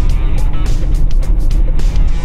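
A car drives on asphalt with a steady, loud low road rumble and a fluctuating hiss of tyre and wind noise throughout.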